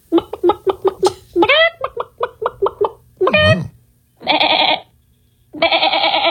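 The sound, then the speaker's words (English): A person imitates farm animal noises with goat bleats, a voice mimicking the animal. A rapid run of short, staccato bleating pulses comes first, then a few longer, loud, wavering bleats separated by brief pauses. “Remember last week we did a whole big show bit where we were making farm animal noises on the show, right? Mm-hmm. So we were a barnyard, absolutely. Exactly. So one of our listeners was actually listening and decided to do their own version of that.”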